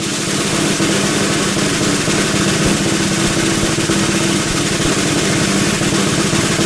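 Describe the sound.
A scooter engine runs in a steady, unbroken drone with a low buzzing hum and a rough vibrating texture, holding an even loudness for the whole stretch with no talk over it.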